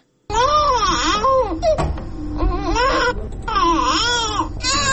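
A malnourished young boy in Afghanistan cries alone in repeated loud, sobbing wails whose pitch wavers up and down, broken by short catches of breath.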